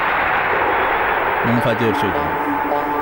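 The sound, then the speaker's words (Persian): A loud, sustained explosion-like rumble, resembling artillery fire, fills the whole clip, with a brief voice heard partway through. “منفجر شد.”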